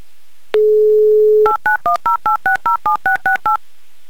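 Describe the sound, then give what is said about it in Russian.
Telephone dialing a number in Moscow: a steady dial tone for about a second, then eleven quick, evenly spaced touch-tone beeps of varying pitch, loud and clear with no talk. “Ну что, звоним в далекий город Москва и надеемся, что Вячеслав услышал, понял, что речь о нем.”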